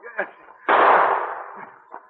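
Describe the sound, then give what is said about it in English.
A single loud gunshot from an audio drama, set at a mine entrance, bursts out with a broad blast and a long fading tail, with faint voice-like sounds just before and after it. “He ran as fast as he could toward the sound, and again he heard one as he approached the opening into Steve's mine.”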